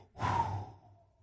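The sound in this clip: A person breathes out audibly in a single soft, breathy exhale that swells quickly and then fades away over about a second.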